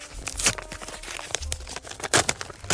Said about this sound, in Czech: Otevírám první obálku.